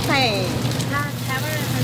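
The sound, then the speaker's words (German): Oyster omelette of oysters, batter, egg and vegetables sizzling and spattering on a hot griddle at a Taipei night market stall: a dense, steady hiss with crackles that runs the whole time under a talking voice. “Hier, wo es so zischt und spritzt”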